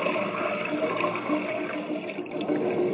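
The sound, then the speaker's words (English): Water pouring steadily to fill jars, a continuous, fairly loud splashing rush that holds an even level throughout without pauses. “Fill these jars with water.”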